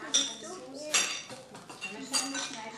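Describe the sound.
A spoon clinking against dishes, a few bright, sharp metallic clinks at irregular intervals, fairly faint and separated by quieter clatter.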